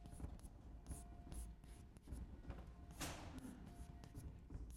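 Faint, scratchy writing strokes on a board during a game theory lecture, many short rubbing marks in an irregular rhythm with no talk over them.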